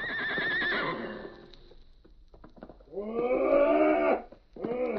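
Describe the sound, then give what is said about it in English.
A horse gives a mighty, sobbing whinny as a radio drama effect. A wavering, strained call is followed after a quieter gap by a louder, longer cry, and another burst begins at the end. “Then, at length, with a mighty sobbing whinny, he sank to the ground.”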